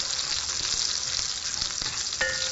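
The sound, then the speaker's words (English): Garlic and spices frying in a pan over lowered heat while being stirred: a soft, steady crackling sizzle with occasional scraping stirs, faint and without talk. “I'm just stirring this around enough to get the garlic all fragrant, which is the main thing.”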